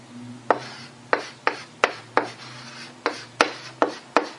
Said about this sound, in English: I don't know if I can draw this here in a way that can be seen on the board